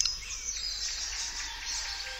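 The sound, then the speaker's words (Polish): A bird gives a fast twittering call while feeding: rapid, high, faint chirps shifting in pitch in an uneven, improvised-sounding rhythm. “Jest to bardzo szybki szczebiot o zmiennej tonacji i nierównym rytmie, sprawiający wrażenie nieuporządkowanej improwizacji.”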